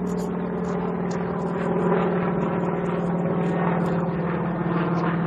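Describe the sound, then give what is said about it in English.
Crop duster plane flying overhead: a steady, fairly loud propeller-engine drone with a buzzing harmonic hum that swells slightly partway through and holds to the end, with no voices. “Wow, can you hear that? Crop duster.”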